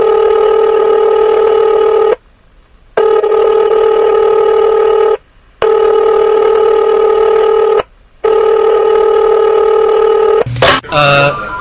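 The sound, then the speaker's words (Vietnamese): Telephone ringing on a call to a university student affairs office: four long, steady ringing tones separated by short silences, then a brief burst of different tones at the end. “Cô dở quyển những trang vàng rồi gọi điện thoại đến phòng quản lý sinh viên đại học y số 2 Giang Kinh, giả vờ lỡ ngỡ rồi hỏi:”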